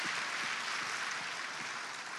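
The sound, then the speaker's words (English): Applause from a church audience at a celebration service, welcoming its online and on-air viewers: dense, steady clapping that holds at an even loudness from start to finish with no pause. “Now, Watoto Church, I would like you to put your hands together and welcome with me our online and on-air audience.”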